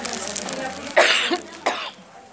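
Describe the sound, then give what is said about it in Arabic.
Two rough, harsh coughs from someone in a severe coughing fit during a Quran study lesson. The first cough is longer and the second shorter, and they follow a low, steady murmur. “الدور بتاع الكحة ده شديد شويتين”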